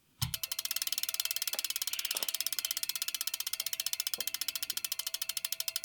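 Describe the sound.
Rapid clicking of a spinning prize wheel: a long, steady run of many even, crisp ticks that goes on throughout, loud and alone, after a low thump at the start.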